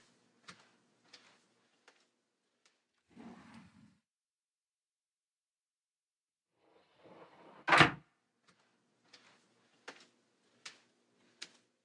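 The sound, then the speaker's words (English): A cabinet is opened to fetch a thermometer: faint scattered clicks, a brief rustle of rummaging, then one louder knock and a few more light ticks, all quiet with no talking. “That's okay, I still have my thermometer in the cabinet over there. Let me grab it.”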